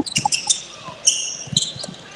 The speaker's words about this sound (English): Ball's out to Mathis on the right wing.